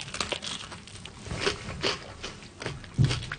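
Crunchy bites into homemade food: a few crisp, cracking bursts of moderate loudness, with softer chewing noise filling the gaps between them.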